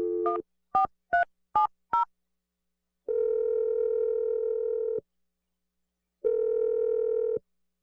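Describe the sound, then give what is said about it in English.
Telephone dialing gives five short touch-tone beeps at varying pitches, then two long, steady, even tones separated by a pause of silence. “I'm gonna dial the number right now. Here we go.”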